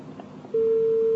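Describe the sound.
A telephone busy tone sounds after a call is cut off: a steady, single-pitched tone starts partway through, following faint background noise, and holds loud and unchanging to the end.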